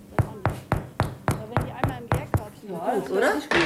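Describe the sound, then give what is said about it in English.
Knuckles knocking on freshly baked bread loaves, straight from the oven, to test whether they are done: a quick, even series of about nine hollow knocks, then a voice speaking. “tests them with a knock of her knuckles. You can hear when they're done”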